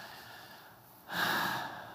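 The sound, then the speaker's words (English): A single deep breath: a soft, breathy rush of air that swells suddenly after about a second of near silence, then slowly eases off. Faint and alone, with no talking. “To just take a few deep breaths”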